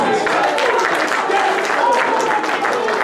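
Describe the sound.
An audience at a Sunday church service stands to clap and shout praise: a dense, steady roar of applause mixed with raised voices that holds at full strength throughout.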